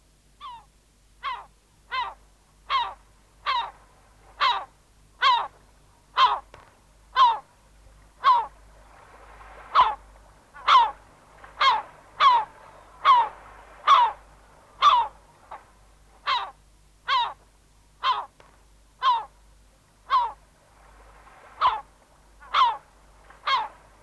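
Herring gulls call in a long, steady series of harsh, evenly spaced calls, each short and strident, repeating many times at a regular rhythm with no voices.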